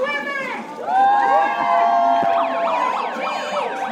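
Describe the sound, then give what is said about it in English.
A sound effects megaphone blasts an electronic siren from a bar deck as a street march passes. It gives a loud, steady rising wail, then switches to a fast, warbling yelp. “showed up on the deck with her sound effects megaphone blasting a siren”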